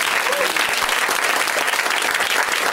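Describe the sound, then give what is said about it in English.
Audience applause at a live stand-up comedy show: a dense, loud, steady wash of clapping that carries on without a break from start to finish. “You guys, one more round of applause for all the comics on the show.”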